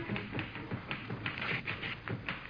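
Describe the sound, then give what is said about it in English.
Typewriter keys clack as letters are typed in an office on a slow weekday morning, a steady run of many irregular, fairly crisp taps with no voices. “He's opening the mail while his assistant, Patsy Bowen, types a couple of letters.”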